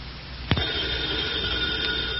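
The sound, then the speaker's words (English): A telephone starts ringing after a short quiet moment, then holds a steady, sustained ringing tone to the end. “First thing in the morning, the phone wakes me.”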